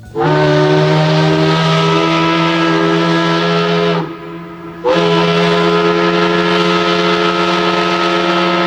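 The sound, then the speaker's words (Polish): A shrill factory whistle blares in the early morning in Łódź, a loud, steady, harmonically rich tone that cuts out briefly midway, then resumes just as loud until the end. “Pierwszy wrzaskliwy świst fabryczny rozdarł ciszę wczesnego poranku”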